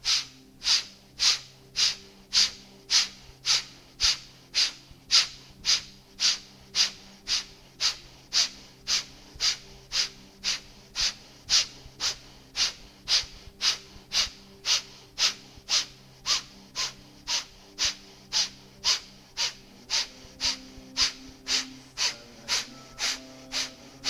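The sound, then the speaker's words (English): Kapalabhati yoga breathing: many rapid, forceful nasal exhalations in a steady, even rhythm, each a short breathy puff of similar loudness, continuing without pause and with no talking. “Breathe in and fill up halfway and begin Kapalabhati.”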